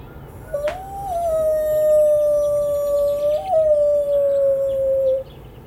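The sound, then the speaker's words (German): A man imitates a wolf howl: one long, sustained tone that rises briefly at the start, holds a steady middle pitch with a small lift midway, then stops abruptly. “Das ist der Wolf. Also, nee, das bin ich. Ja. Der Wolf, das bin ich.”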